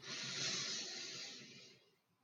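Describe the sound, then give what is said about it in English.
A person breathing in deeply, a soft, airy inhale heard alone that holds steady before tapering off quietly. “identify what we're grateful for as we take one breath together. So breath in”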